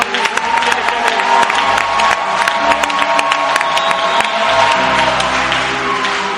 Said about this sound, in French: Acclamons-le encore très fort.